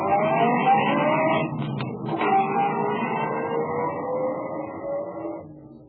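Car engine droning steadily as the vehicle drives back to town, its note shifting slowly, with a brief rougher stretch near the middle before the sound tails off at the end.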